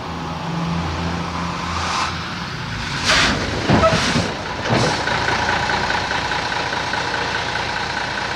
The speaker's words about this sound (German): Dann schwankte der Laster um die Biegung.